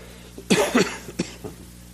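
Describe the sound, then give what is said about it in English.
Coughing from someone with a tickle in the throat: two strong, close coughs, then a couple of fainter, shorter ones trailing off, over a low steady hum. “I'm starting the year with a little tickle in my throat, so I'm going to cough a little bit here and there.”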